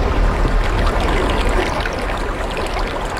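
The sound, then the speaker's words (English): Underwater water sound effect used as a show intro, a dense, loud, continuous wash of bubbling noise over a deep rumble, with no voices. “We're underwater? Yes. We're underwater. That's your new intro.”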